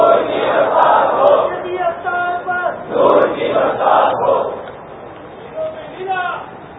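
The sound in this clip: A crowd chanting religious slogans in unison at an Islamic religious gathering, the massed voices rising in several loud swells before thinning out toward the end.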